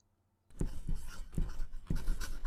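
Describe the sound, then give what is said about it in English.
A pen writes on paper after a brief silence, making four bursts of scratchy strokes at an uneven pace. “Malfoy, why are you writing all that?”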